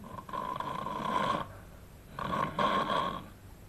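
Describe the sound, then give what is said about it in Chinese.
A voice imitates snoring with two long, raspy, rattling snores separated by a short breath-like pause, fairly faint and alone. “打开呼噜了。”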